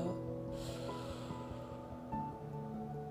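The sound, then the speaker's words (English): A deep inhale from a person during a guided breathing exercise, heard as one soft, airy intake of breath early on over steady background music. “So we're gonna breathe in. and breathe”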